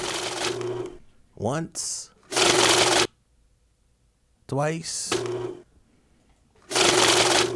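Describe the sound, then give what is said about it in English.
Money counting machine riffling through banknotes in several short, loud whirring bursts, with a voice speaking briefly in the pauses between runs. “I'm going to play the sound of a money counter, and you try to guess the sound on that money counter.”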